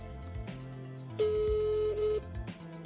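A telephone busy signal during a call: one steady electronic tone of about a second, clear above low background sound.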